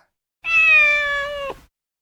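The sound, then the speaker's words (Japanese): A six-year-old black cat, a former stray now kept as a pet, gives a single loud, clear meow just over a second long, holding a steady tone before dropping off abruptly. “こてつ、黒猫、6歳。野良から飼い猫になり”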